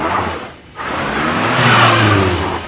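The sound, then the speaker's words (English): A car engine revs up under throttle, a loud steady roar that briefly dips and then swells again as the engine pulls harder. “Okay, ease on the gas. That's it.”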